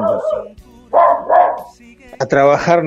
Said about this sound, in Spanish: con mi perra se enoja cuando hago notas.